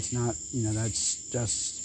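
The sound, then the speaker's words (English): Crickets chirp outside in a steady, high-pitched trill that runs unbroken through the whole clip, with low muffled sound underneath. “I will apologize for the crickets going out in the background, but I wanted to step outside.”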